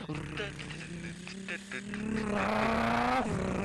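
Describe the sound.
A run-down car's engine drones steadily while driving, its pitch holding level before swelling louder after about two seconds and dipping near the end, with a voice over it.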